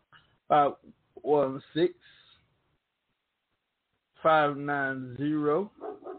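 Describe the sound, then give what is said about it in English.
A dog vocalizes in a few short, voiced bursts, then gives a longer, drawn-out wavering cry with clear tonal harmonics. “My dog putting his 2 cents in.”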